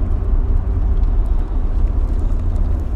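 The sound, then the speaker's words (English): A car driving along, with a steady, loud low rumble of engine and road noise that stays even throughout, with no voices. “I'm more just sort of thinking out loud as I'm driving along here.”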